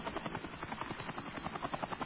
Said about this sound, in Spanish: Aquí viene este antiguo helicóptero de la Unión Soviética. Es un Mi-8.